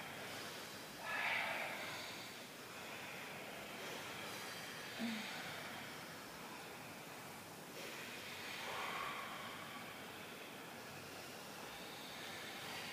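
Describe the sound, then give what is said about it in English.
Yoga class participants breathe loudly into microphones. Long rushing inhales and exhales blend into a constant noisy wash, with a few slightly stronger swells. “breathe as loudly as you can into the microphone so the person who's doing it, wherever they are, feel like they're a part of this class”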